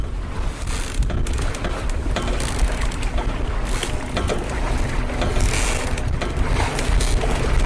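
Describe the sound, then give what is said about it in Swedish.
An outboard boat motor runs with a steady, low, churning rumble and a broad wash of noise. The sound stays at an even loudness throughout, with no voices. “Hissa ankar. Kasta segel. Starta utombordan och ge oss iväg.”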